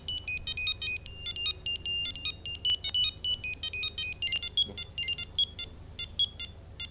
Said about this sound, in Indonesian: Nah, miki gue suara handphone ya.